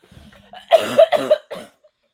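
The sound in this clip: Coughing from someone who swallowed down the wrong pipe: several harsh, throaty bursts packed into about a second, loud and choking, with a softer cough trailing after.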